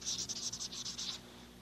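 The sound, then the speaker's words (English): Pen scratching while writing a note: many quick, rough strokes in close succession, then stillness for the last half second. “It's great to be able to write and leave notes like this, isn't it?”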